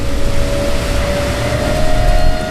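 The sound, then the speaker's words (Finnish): A boat engine drones loudly as the craft travels at 17 knots and lifts completely off the water. The roar stays steady, with a sustained tonal whine running through it. “meillä on 17 solmun nopeutta ja vene lähti nyt kokonaan irti vedestä.”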